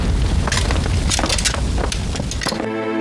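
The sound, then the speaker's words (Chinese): Roaring, crackling blaze of a house fire with a bedroom engulfed, a dense loud wall of noise broken by sharp cracks and snaps throughout, ending in a brief steady hum. “夫人房间着火！”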